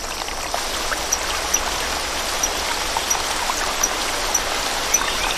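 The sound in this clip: A babbling rainforest stream swollen by rain runs in a continuous, even rushing wash. Small splashes and drips surface every so often, but the flow keeps a steady loudness throughout, with no voices.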